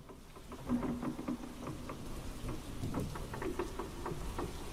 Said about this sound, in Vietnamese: Ở bên ngoài mưa vẫn cứ dữ.